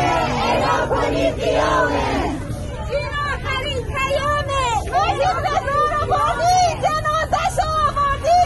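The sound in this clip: Students in Tehran chant in protest in a social media video, many voices joined in loud, rhythmic shouted phrases that rise over a murmuring crowd babble and keep a steady chanting pulse.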